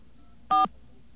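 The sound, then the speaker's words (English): A single telephone keypad tone rings out during dialing of a toll-free directory assistance number. It is one short, steady dual-pitch beep, alone over a low background hum. “I will even dial the extra digits there.”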